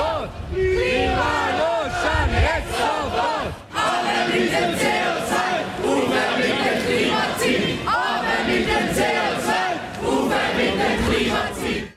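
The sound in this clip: Climate strike students chant loudly in front of the town hall to greet arriving cantonal councillors, a dense crowd of voices repeating rhythmic slogans with a brief dip near the middle.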